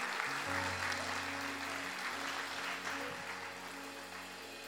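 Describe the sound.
Audience applause at a Sunday church gathering: a steady patter of many clapping hands that holds for several seconds and eases slightly toward the end, with low sustained tones underneath.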